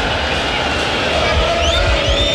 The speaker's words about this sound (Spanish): Escuchemos al público. El cantito contra los dirigentes.